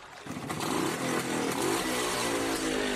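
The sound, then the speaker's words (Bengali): A motorcycle engine roars as the bike starts off and pulls away. The roar is loud and continuous for the whole clip, with no voices. “গর্জন করে একটা ধাক্কা দিয়ে bike ছুটতে শুরু করলো”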